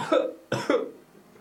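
A few short, harsh coughs in quick succession, fairly faint, trailing into quiet.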